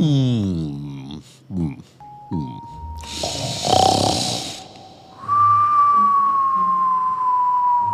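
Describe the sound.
Cartoonish snoring effect for a sleeping character in a children's story: a brief narrating voice, a rasping snore, then a long sustained whistle that slowly falls in pitch.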